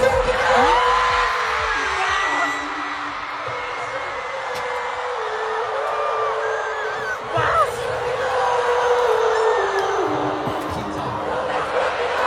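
A large concert crowd at a BTS show in Munich cheers and screams in a dense, continuous roar. The loudness stays steady throughout, with only a brief dip partway through.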